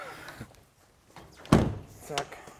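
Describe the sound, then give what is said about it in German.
A heavy, stiff hatch on an old restored beer wagon is swung shut, landing with one loud, deep thunk amid a few lighter knocks and rattles. “kannst die Klappe noch mal zumachen, die geht immer so schwer”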